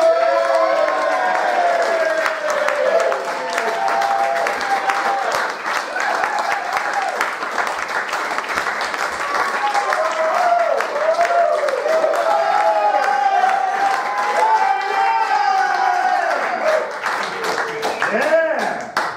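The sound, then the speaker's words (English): An audience at a live show cheers and applauds to welcome a performer, with sustained, loud, dense clapping mixed with whoops and shouting voices throughout. “you will cheer and clap your way through it. Are you, are you with me? Yeah! Making very, very welcome.”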